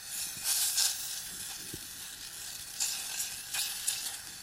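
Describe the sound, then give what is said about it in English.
Butter melting and sizzling in a pan for baking: a faint, steady frying hiss with a few slightly louder bursts of crackle throughout. “Now it's time to sort out all the wet ingredients. Start by melting some butter.”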